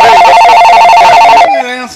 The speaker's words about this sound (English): Hey, we got a call.